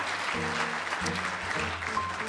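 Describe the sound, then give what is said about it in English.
A game show audience applauds in a steady, dense wash of clapping that holds at the same level from start to finish. “We applaud every family.”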